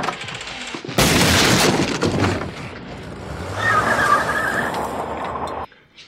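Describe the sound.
Gunshot in a film scene: a sudden, loud blast that cuts in sharply and leaves a rough, noisy wash ringing on for a few seconds before stopping abruptly.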